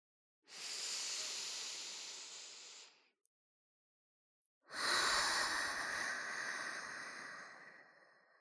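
Slow breathing in and out: two long, soft, airy breaths separated by a pause of silence, each a steady hiss that fades gradually. No talking.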